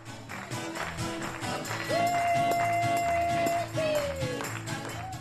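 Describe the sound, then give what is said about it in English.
Gospel music from Fernando Garay's church in Charlottesville, Virginia, carries a rhythmic beat with clap-like hits. A long sustained sung note rises over it midway. “That's music from prosperity gospel preacher Fernando Garay's church in Charlottesville, Virginia.”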